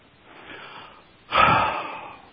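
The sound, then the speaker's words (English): A deep breath taken during a group centering meditation: a soft, airy inhale, then a louder, rushing exhale that fades away. “So let's all take our big deep breath”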